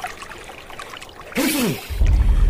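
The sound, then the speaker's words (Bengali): River water is scooped up with both hands, making a brief low, splashing pour that follows a short vocal sound and continues to the end. “যাই, দুহাত ভরে নদীর পানিতে শুকনো গলাটা ভিজিয়ে নেই।”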